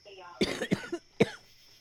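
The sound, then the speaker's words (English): A woman coughs a few times in harsh, irregular bursts, the strongest one near the end, with a rough, throaty edge. “I wasn't laughing. I was coughing. I was coughing.”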